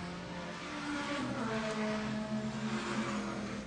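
Race car engine at a time attack session at Road Atlanta, passing on its second lap: a loud, sustained droning engine note rich in harmonics that holds steady throughout.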